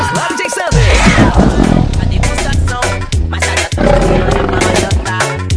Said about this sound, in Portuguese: E Ruge, meu tigre!